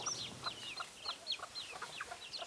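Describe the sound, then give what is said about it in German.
Bush hens cluck among a mixed flock of farm poultry. The clucks and chirps are quick, repeated and fairly high, rising and falling irregularly at low volume against a quiet background. “Unter ihrem bunt gemixten Federvieh gibt es auch ein paar Buschhühner.”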